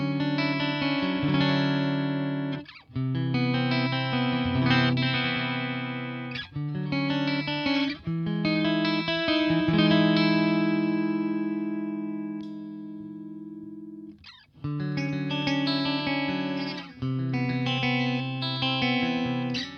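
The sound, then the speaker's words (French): Clean electric guitar played on the neck pickup with coil split engaged for a single-coil tone, ringing chords and bright sustained notes in several phrases with short gaps; one long chord decays slowly near the middle, and nobody speaks. “Je mets le split en œuvre qui va diviser les bobines et je commence avec le micro-manche en simple.”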